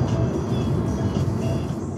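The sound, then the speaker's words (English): Rented car driving along a country road through the Swiss countryside: a steady low engine and road rumble that stays even throughout, with no distinct events. “Okay, we just drove in a cornfield to pass a tractor.”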